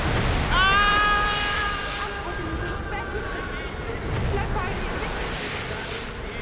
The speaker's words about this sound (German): Der Sturm hat nachgelassen. Ich kann jetzt die Wellen hören.